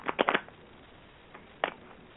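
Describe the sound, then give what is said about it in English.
Tarot cards being shuffled by hand: a quick run of a few soft, papery flicks, then a pause and another brief riffle, faint and dry with no talk over it. “What I'll do is I'll shuffle the cards”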